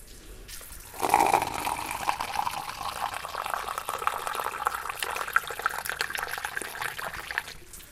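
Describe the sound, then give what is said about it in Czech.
Water flows from a forest spring of alkaline, sodium-rich mineral water at the Nové Lázně spa. A brief quiet opening gives way to continuous splashing and trickling that runs evenly to the end. “Je, tady teče nějaký pramen, lesní pramen.”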